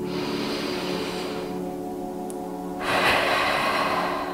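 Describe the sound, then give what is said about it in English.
Deep belly breath taken during a breathing exercise: a soft, airy stretch of breath noise, a short quiet pause, then a louder, fuller rush of breath. “Now let's do a deep belly breath.”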